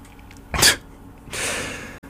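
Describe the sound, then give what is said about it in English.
A single sharp, explosive sneeze bursts out loudly, followed after a short pause by a longer, breathy exhale that fades out. “Oh god, I'm going to sneeze. So I'm sneezing on air.”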